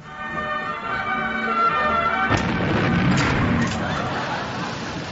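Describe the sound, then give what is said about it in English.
Explosion sound effect in a comedy radio sketch: a steady buzzing tone gives way abruptly to a loud, dense roar of noise that stays heavy to the end. “And now, Radio 4 will explode.”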